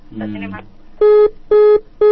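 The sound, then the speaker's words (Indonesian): A telephone line tone after a call is cut off: a brief voice-like sound, then three short, evenly spaced beeps at a steady, fairly low pitch, each loud and clean with silence between. “Mohon maaf ya bagi Umu Ahsan di Bekasi terputus. Nah. Hubungan teleponnya mungkin Umi bisa hubungi kembali”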